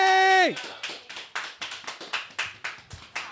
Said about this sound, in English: Round of applause.